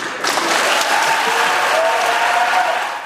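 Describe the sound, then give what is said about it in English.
Senate Democrats applaud and cheer after the confirmation vote for Judge Ketanji Brown Jackson to the Supreme Court, with a loud, dense burst of clapping and a few raised voices mixed in. “Senate Democrats cheered and gave a standing ovation after the vote.”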